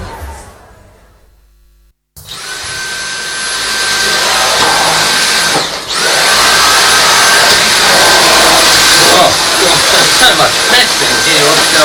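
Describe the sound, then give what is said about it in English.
A vacuum cleaner switches on after a quiet moment and runs with a loud, steady roar and a high whine, dipping briefly before resuming at full strength. “I was just doing some vacuuming there.”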